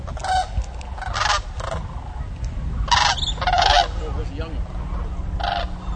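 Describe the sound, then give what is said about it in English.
Goose-like honking calls of birds at a sanctuary on a cold night: several loud, harsh honks come in irregular bursts over a steady low rumble. “So the bird actually is fantastic. And if you can hear the call, you can hear it in the background.”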